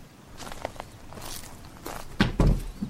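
Footsteps walking, a few soft, irregular steps followed by two heavier, louder thuds near the end, with no talking.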